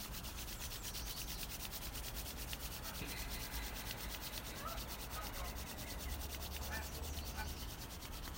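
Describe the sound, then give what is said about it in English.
Palms rubbed briskly together to warm the hands during a guided heel and foot self-massage, a faint, dry, continuous swishing friction that keeps up a quick back-and-forth texture with no pauses. “Inhaling to the heel, bringing the heat of the hands into that heel. And rubbing the hands.”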